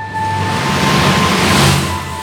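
Suburban road traffic: a vehicle's broad rushing noise swells and then eases off over a couple of seconds, over a faint steady hum.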